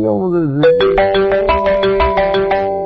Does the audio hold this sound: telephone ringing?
yes

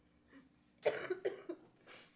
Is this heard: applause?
no

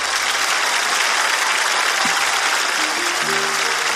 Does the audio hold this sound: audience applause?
yes

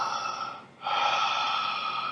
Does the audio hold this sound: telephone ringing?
no

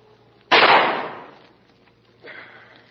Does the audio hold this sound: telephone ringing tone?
no

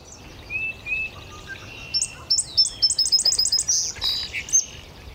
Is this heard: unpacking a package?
no

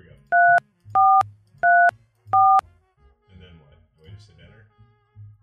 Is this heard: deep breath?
no

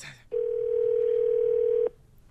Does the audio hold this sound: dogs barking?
no

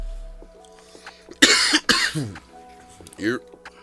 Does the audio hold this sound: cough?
yes

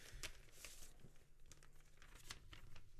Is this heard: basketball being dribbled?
no

